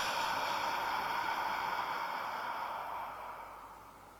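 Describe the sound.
A deep breath taken audibly during a guided relaxation exercise: a long, airy rush holds steady for about three seconds, then eases off and fades quieter.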